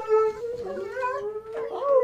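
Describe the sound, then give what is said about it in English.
Dogs howling in a sustained, tonal wail that wavers in pitch, moderately loud, with a brief upward slide near the end. “But right now, I think it's time for me to bring in the dogs.”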